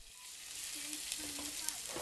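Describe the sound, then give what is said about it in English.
Eggs and chorizo fry in a pan in a storefront church kitchen, a faint, continuous crackling sizzle with small pops scattered through it. “Elvira Arellano is in the kitchen cooking eggs and chorizo. That kitchen is in a storefront church”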